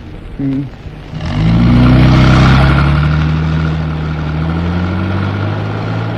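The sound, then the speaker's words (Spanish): Car accelerating away on an asphalt road: a loud engine roar builds quickly, its droning tones rising and holding steady, with a constant rumble of motion and no talk. “el árabe hunde el acelerador, proyectando el vehículo en la cinta asfáltica”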